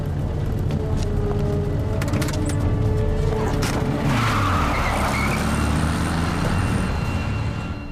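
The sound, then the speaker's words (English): An old VW Beetle's engine runs loudly and steadily as the car drives and pulls up, with a gritty, continuous motor rumble throughout. “An old VW Beetle pulls up beside him, driven by Camille.”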